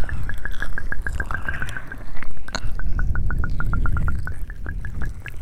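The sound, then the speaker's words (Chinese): Wet liquid sounds from a role-play of liquid being poured into both ears, made of many quick, crisp drips and squishy pops in a rapid, fairly even series. “姐姐要在你的双耳里面灌入足量的液体，灌入足量的液体，”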